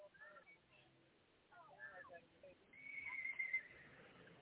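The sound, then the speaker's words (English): A horse whinnies a few times. The high, wavering neighs are fairly faint, separated by quiet gaps, and the last call is the longest. “yeah, another horse”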